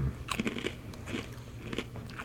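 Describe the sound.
Crunching of a fortune cookie being bitten and chewed: many faint, crisp, crackling crunches in an uneven rhythm, heard alone.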